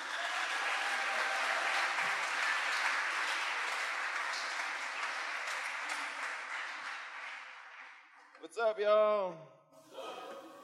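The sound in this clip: Applause welcoming a speaker at a Catholic prayer music event, a sustained wash of clapping for about eight seconds that tapers off, after which a single voice begins speaking.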